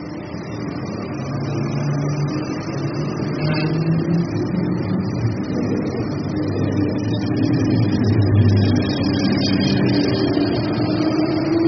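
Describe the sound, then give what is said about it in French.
A train departing towards Roissy-Charles-de-Gaulle airport gives off a steady low mechanical rumble that swells gradually in loudness, with no talking over it. “Quelques instants plus tard, il admire le départ d'un train en direction de l'aéroport Roissy-Charles-de-Gaulle.”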